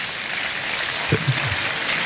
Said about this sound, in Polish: Ja proponuję brawa za tę próbę, bo uważam, że była brawurowa.